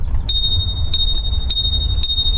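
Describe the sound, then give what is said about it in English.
A small bell like a bicycle bell rings four times in an even rhythm. Each bright, high ding sustains a steady ringing tone over a low background rumble. “I'll stop with the bells now.”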